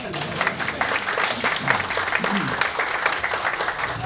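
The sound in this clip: Audience applause for a performer's reading of humorous verses at a gathering: thick, steady clapping from many hands at a moderate level, sustained evenly for about four seconds.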